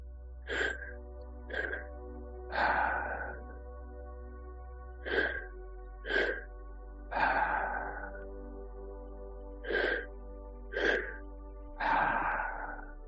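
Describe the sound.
Deep breathing through the mouth during breathwork. A repeating pattern of two short, sharp breaths followed by a longer, rushing breath recurs three times at a steady pace, quiet and without talk.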